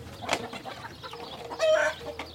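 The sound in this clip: Chickens clucking in a henhouse in an organic garden beside a company's buildings: a few short, throaty clucks and squawks scattered over soft background noise, one call longer and louder near the end.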